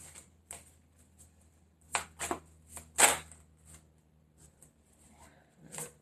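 Tarot cards being shuffled and drawn give soft, papery rustles and a few sharper snaps and flicks, scattered and faint against a quiet background.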